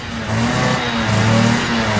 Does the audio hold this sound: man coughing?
no